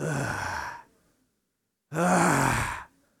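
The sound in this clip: A church audience groans together, many voices joining in two drawn-out, breathy groans. Each lasts about a second and fades out, with a short silence between them.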